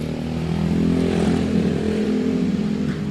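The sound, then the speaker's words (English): Dirt bikes ride past outside, their engines making a loud, steady droning buzz with a rough, revving edge that stays strong throughout. “Oh, listen to that. Oh, we got dirt bikes today.”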